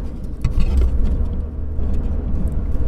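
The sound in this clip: A car driving, heard from inside as a steady, loud, low engine and road rumble that continues without a break and without clear talk over it.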